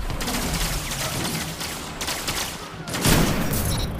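Shotgun fire in a video game during a tough match, heard as a dense, continuous barrage of loud gunshots with a heavier burst toward the end.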